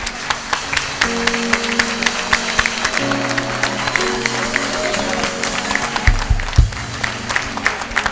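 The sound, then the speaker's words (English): Applause from a church audience honoring the youth sponsors, a dense and steady wash of clapping that holds for the whole stretch with no break. “So let's give them a big hand of appreciation.”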